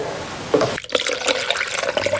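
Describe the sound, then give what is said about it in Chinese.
Hot water is poured into a ground rice slurry while it is stirred, giving a steady splashing, gurgling flow of liquid with a brief break partway through. “为了防止米浆沉淀形成团，需要不停搅拌并加入热水”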